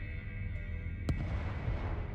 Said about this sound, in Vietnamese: Tiếng pháo hoa vừa nổ